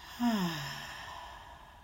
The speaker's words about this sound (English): And one last time together, breathe in and out.